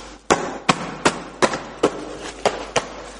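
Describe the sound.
A papier-mâché egg being crushed gives a series of sharp, dry cracks and crunches at an uneven pace, each hit loud and brief with short crackling tails.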